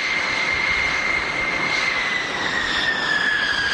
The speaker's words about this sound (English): The B-2 bombers at Whiteman Air Base.